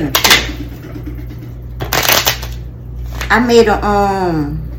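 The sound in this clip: Tarot cards from a crime-themed deck are handled and shuffled in a few quick papery bursts, followed by a person talking.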